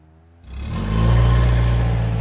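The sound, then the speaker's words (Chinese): A car engine starts abruptly after a quiet moment and the car speeds off. The engine builds to a loud, low, sustained roar that holds steady as it accelerates. “欧阳子豪一声不响，猛然启动了车子，车子一路飞驰，不大一会儿停在了传媒大楼的楼下。”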